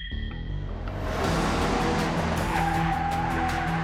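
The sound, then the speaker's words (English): A Ford Mustang tears out of a driveway with squealing tires. Its engine swells to a loud, steady roar, and a high, sustained tire squeal rises over it in the second half, with no voices. “the driver's seat of the Mustang and tore out of his parents' driveway”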